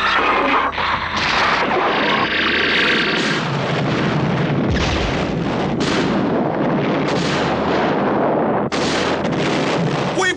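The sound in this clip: Tracer rounds are fired in loud, dense bursts of booming gunfire that run almost continuously, with sharp blasts breaking through a roaring wash of noise.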